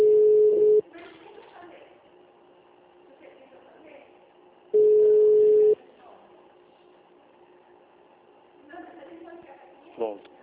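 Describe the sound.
Ringback tone on a telephone line while a call to a municipal engineering department is being connected: two steady, mid-pitched tone bursts about four seconds apart, with faint talk between them.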